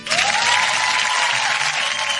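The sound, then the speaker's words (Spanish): Applause: a steady wash of many hands clapping, sustained and fairly loud for about two seconds without pauses, with no talk over it. “Un aplauso a la tecnología.”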